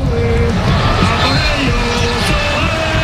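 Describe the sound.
A crowd in Madrid's Plaza de Colón celebrates Oyarzabal's goal for Spain's football team with a dense, loud, continuous roar. Low thumping beats run underneath, and a voice speaks over the noise.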